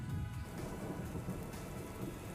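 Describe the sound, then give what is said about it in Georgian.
Tropical rain falls steadily, a dense continuous hiss of water spread evenly across the whole clip, fairly faint and with no voices. “რომ ნახოთ, როგორ წვიმს, ნამდვილი ტროპიკული წვიმა.”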